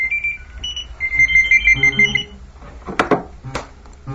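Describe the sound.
A telephone rings with a high electronic warbling ringtone in a few bursts over the first two seconds, then falls silent.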